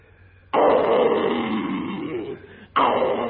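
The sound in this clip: A lion roars in a long, deep, rumbling burst that fades slightly, then a second roar starts abruptly just after.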